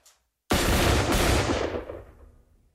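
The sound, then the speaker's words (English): A volley of rifle fire cracks out sharply and loudly after near silence, its rumbling echo spreading and slowly fading away over about two seconds. “Dawn crept up and we heard rifle fire and then silence. Rifle fire and then silence.”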